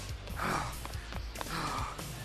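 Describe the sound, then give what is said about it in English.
Heavy, breathy panting from a person catching their breath after running through a laser tag maze, with a couple of ragged gasping breaths rising and falling over a low, steady background rumble. “I need to catch my breath. Please.”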